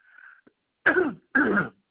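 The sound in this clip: A sneeze: two short, forceful bursts of breath and voice in quick succession, preceded by a faint, brief tone.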